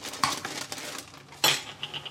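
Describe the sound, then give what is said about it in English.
A knife chops pickles for a sambal, lime and pickle mayo for a breakfast sandwich, giving a few sharp metallic clacks with lighter clinks between them. Two hits stand out clearly, and there is no talk. “Let's chop some pickles.”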